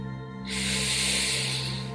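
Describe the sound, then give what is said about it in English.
A deep breath drawn in through the nose: one long, airy hiss that starts about halfway in and holds steady, over a constant low hum. “Just take a big breath in through your nose”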